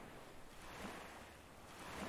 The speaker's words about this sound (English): Do you hear the waves, lighthouse keeper? The way they crash against the rocks, lap against the shores.